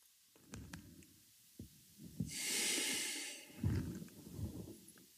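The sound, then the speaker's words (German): Someone sniffs a drink with their nose held in the glass, then breathes out. A long, airy breath swells and fades in the middle, surrounded by soft snorts, rustles and light knocks. “ich hänge jetzt mal wieder die Nase rein, atme aber nicht. Lass es einfach mal in die Nase strömen und atme dann, wenn ich wieder draußen bin.”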